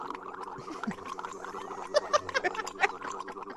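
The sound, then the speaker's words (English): Gargling, bubbling throat sounds replace a man's speech in a TV interview clip. Irregular wet bursts follow a speech-like rhythm, rising and falling in loudness. “I'm going to play a quick clip of Steve Mnuchin on Meet the Press where his voice has been replaced with some gargling.”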